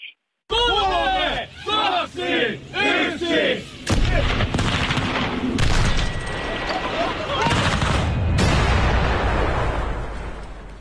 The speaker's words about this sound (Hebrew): לא, הוא ממש פוצץ אותה. הוא שם את הטסלה. דינמית, ופוצץ אותה.